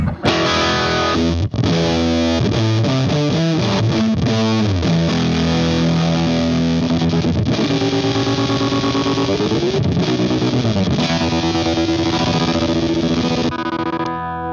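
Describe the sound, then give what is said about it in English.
Heavily distorted electric guitar through a Fuzz Factory fuzz pedal gives a loud, buzzing, saturated tone, with sliding and shifting notes held nearly without pause before cutting off near the end. “I always had the Fuzz Factory. Just I remember when I found that pedal so long ago, but then I never stopped using it. Yeah. Like it's just a mean sound.”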